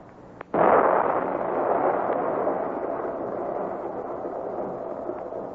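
Dynamite explosion: one sudden loud boom, then a long, dense roaring rumble that slowly fades over several seconds, with no talk over it.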